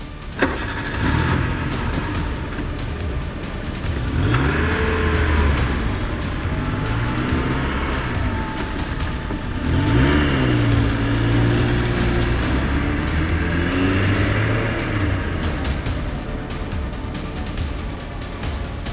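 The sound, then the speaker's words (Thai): A car engine rumbles steadily and revs as the car hurriedly pulls away toward Bangkok, its hum swelling and easing in two rises over a continuous low drone. “ป้าอ้อยก็รีบเร่งขึ้นรถมุ่งหน้าไปยังกรุงเทพ”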